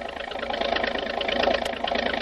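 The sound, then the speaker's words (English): A speedboat's motor roars as the boat hurls through the water. The dense, steady engine noise holds loud throughout, with a slight swell partway through. “starts up with a roar, and the speedy motorboat hurls through the water into the midst of the war canoes.”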